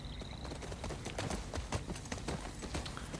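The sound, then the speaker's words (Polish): Horse hooves while riding a horse in a video game, a steady run of quick, rhythmic clip-clop hoofbeats, fairly faint and heard on their own. “Może na koniu pojedziemy, słuchajcie.”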